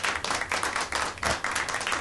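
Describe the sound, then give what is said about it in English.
An audience applauds with dense, steady clapping. It stays loud and even across the whole clip, with no talk over it. “Round of applause for Carly Fiorina.”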